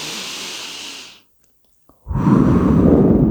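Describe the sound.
Deep breathing for a breathing exercise: a long, hissing inhale fades into a brief silence, then a heavy, rushing exhale follows, loud and steady, with no talk.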